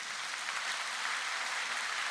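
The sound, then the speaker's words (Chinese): A church audience applauding: dense, continuous clapping that holds steady at a moderate level throughout, with no voices standing out. “我们拍手给上帝。”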